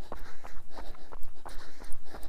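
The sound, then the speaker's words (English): Footsteps of a person running, many quick, evenly spaced thuds in a steady rhythm throughout. “My heart rate's 127, which makes sense. I'm talking, and I am running.”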